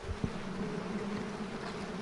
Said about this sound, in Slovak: A čo teraz s týmito včelami spravíte? Ja to tu berem domov, pekne dám do úľa.